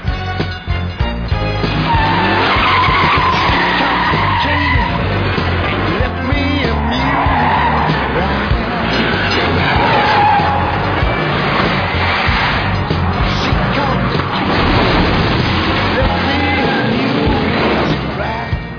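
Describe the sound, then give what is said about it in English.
Tires skid and squeal while the engine of a car roars: a police-spec 440 cubic inch motor on police tires, suspension and shocks. The noise is loud and continuous throughout. “Car's got a lot of pickup. It's got a cop motor, a 440 cubic inch plant. It's got cop tires, cop suspension, cop shocks.”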